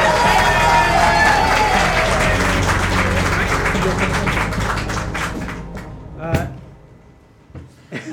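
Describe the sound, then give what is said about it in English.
Audience applause greets a comedian's entrance at a live comedy tabletop role-playing show. Dense, sustained clapping gradually fades after about six seconds, leaving a few scattered claps. “You're going to go crazy wild with applause.”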